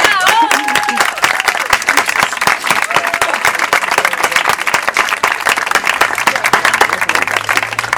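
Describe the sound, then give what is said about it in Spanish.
Audience applause at a poetry reading on a terrace: loud, sustained clapping from many hands, with crisp individual claps dense throughout and no letup across the whole stretch. “Jesús Rivero, un aplauso.”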